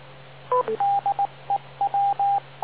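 An amateur radio repeater time-out tone: a brief two-pitch blip, then a Morse-like string of short and longer beeps at one steady mid pitch, clean and alone.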